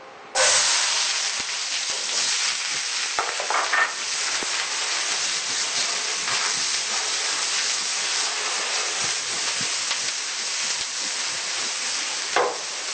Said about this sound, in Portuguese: Mais uma vez, com a frigideira bem quente, vou colocar azeite de oliva, cebola,